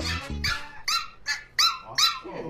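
A pinscher barking, a series of sharp, high-pitched yapping barks in quick succession, heard alone without talk.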